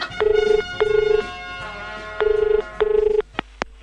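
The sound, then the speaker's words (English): A telephone rings during a prank call to a massage parlor, sounding two pairs of steady buzzing double rings separated by a short pause, followed by a couple of quiet clicks. “This is Warnie calling a massage parlor.”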